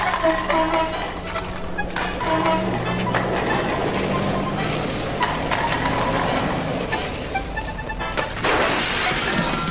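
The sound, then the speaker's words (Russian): Glass shattering as a tin can strikes and breaks a window in a yard where children play, a sudden bright crash near the end that cuts through a dense, steady clatter of background noise. “Ударив банку, разбили окно. Окно разбили”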